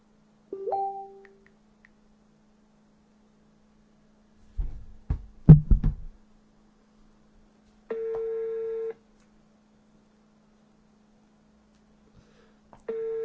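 Ringback tone on an outgoing phone call: a short beep and some handling rustle, then a steady mid-pitched tone lasting about a second, silence, and the next tone starting again.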